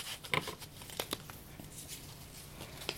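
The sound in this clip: A paper question slip is drawn from a hat and unfolded, giving soft, uneven crinkling and a few brief crackles.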